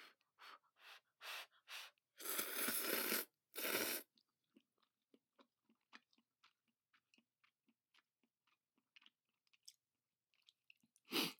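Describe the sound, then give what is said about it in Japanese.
Someone eats messy, juicy food, chewing: a few loud breathy bursts at the start give way to many soft, irregular mouth clicks and crunches, quiet and alone without talk. “汚さないように食べるのって難しいね。”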